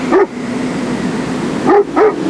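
A dog barks three sharp times on the ice floe while guarding a sled: a single bark, then a pause, then two quick barks close together, each standing out over a steady low background hum.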